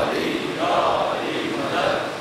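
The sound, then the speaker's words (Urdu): An audience shouts a religious slogan in unison, a chant of “Haidari, Ya Ali” raised during an Urdu sermon. Loud collective voices swell and fall in a couple of rhythmic surges over two seconds. “جیسے ماشاءاللہ بہت ہی جوش سے نعرہ لگا، اور لگائیے”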